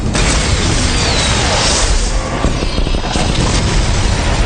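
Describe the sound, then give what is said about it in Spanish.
Infrared missiles fired and intercepted explode in a dense, unbroken roar of loud booms and blasts, with no voices heard. “¡Misiles interceptados!”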